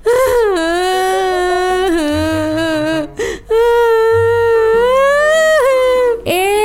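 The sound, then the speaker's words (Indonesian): A child cries loudly in long, sustained, high-pitched wails. A brief catch of breath splits the crying midway, and it carries on loud and unbroken to the end. “Ladalah, tambah kenceng nangisnya. Kenapa sih, Nak?”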